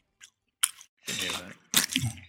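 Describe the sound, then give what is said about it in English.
Close-up chewing of food with the mouth open: a few loud, wet, crunchy mouth bursts separated by short pauses. “Dad, chew it right next to the mic. And open your mouth while you chew with your mouth open.”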